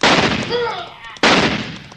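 A rifle shot cracks sharply partway through, cutting through a noisy rumble and leaving a broad, decaying tail.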